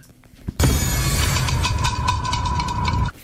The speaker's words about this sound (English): Oh, hang on. Where's the shade rattle?